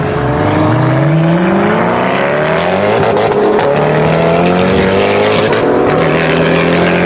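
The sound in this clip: Ferrari LaFerrari hypercar engine accelerating, a loud, continuous roar whose pitch sweeps upward in repeated rising runs as it revs, with no pause.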